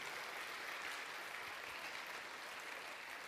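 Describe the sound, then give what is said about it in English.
Applause from a church audience at a vacation Bible school event: dense, steady clapping that holds at an even level from start to finish, with no voices standing out. “I want you to give her a round of applause”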